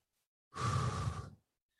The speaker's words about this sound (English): let's do a do a five minute breath work session on here. So cherry. Breathe deeply.